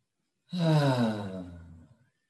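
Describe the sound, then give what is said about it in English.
A single long, deep breath during guided meditation, drawn in and released with a soft voiced, sigh-like quality that swells quickly and then tapers off gradually into silence. “Let's take a breath.”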